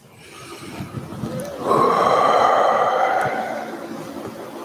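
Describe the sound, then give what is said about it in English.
A deep breath: a long, airy hiss that swells about midway, holds steady for a couple of seconds, then slowly eases off. No other sound accompanies it. “Take a breath.”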